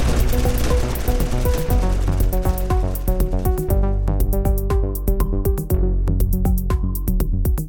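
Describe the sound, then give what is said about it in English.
Heavy machine guns fire in a battle against waves of enemies, a loud, dense rattle of rapid repeated shots running throughout over steady tonal music. “You two, pick up those machine guns. They're gonna kick hard, so keep them level and pointed at the enemy. Fire at will!”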